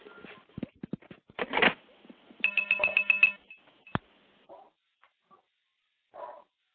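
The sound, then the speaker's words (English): Phone line disconnect cheeps follow the hang-up of a call: a flurry of clicks and quick chirps, then a short run of rapid tonal beeps, a sharp click, and a few faint, brief blips trailing off into silence. “what I'm going to do is hang up, listen for the cheeps, and that'll be the stack tearing down.”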